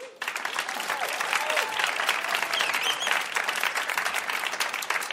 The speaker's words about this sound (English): And now let's please welcome our final contestant of the evening, John Earle.